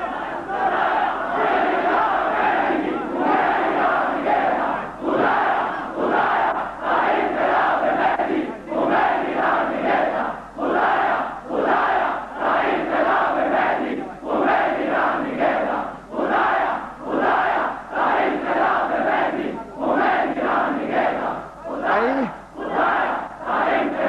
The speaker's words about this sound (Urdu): اس کے لیے نعرہ لگائیے.